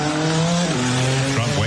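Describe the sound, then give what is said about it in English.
Indy-style race car engines at the Freedom 250 Grand Prix in the US capital, a loud, continuous harmonic whine whose pitch steps down twice, like gear shifts, over a steady roar. “Flag at the Freedom 250 Grand Prix, the first Indy-style race ever held in the nation's capital.”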